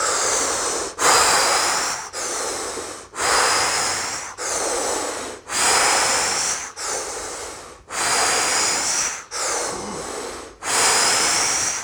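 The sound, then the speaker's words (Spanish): Deep, forceful exhalations during a breathing exercise, about ten loud breathy whooshes in a steady rhythm, each starting strong and tapering off, with no voices. “Y exhala todo el aire que puedas.”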